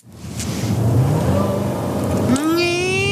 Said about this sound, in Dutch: We gaan rijden. De rijimpressie. Ja, en zoals beloofd, Wouter test de Jeep Grand Cherokee Trackhawk.